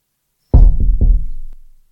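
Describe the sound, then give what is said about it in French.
Knocking on a French window: a quick cluster of three heavy, low, resonant knocks that run together and fade out slowly, with no other sound around them. “trouve la porte-fenêtre et frappe une fois”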